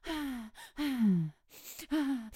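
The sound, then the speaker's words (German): A person demonstrates a physiological sigh, meant as two short inhales and one long exhale. Several breathy, voiced exhalations fall in pitch, with quick noisy intakes between them, and the longest breath comes in the middle. “ja, und das ist genau dieser physiologische Seufzer. Also das sind zwei kurze Einatmer und ein langer Ausatmer”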